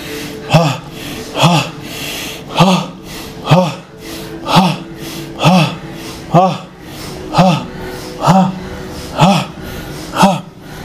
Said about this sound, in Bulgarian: дишай, ако имаш нужда със звук.